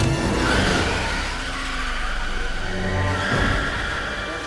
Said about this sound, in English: then shifts gears and drives away